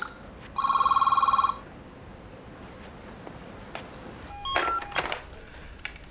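A telephone rings with an incoming call: one loud, rapid electronic warbling trill lasting about a second, then a quiet gap and a few short beeps and clicks.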